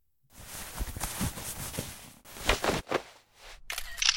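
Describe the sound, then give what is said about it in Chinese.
Camera shutter clicks as photos are taken of a captive during a tense confrontation, a few sharp bursts over a noisy, busy background. “为什么还要拍照片？”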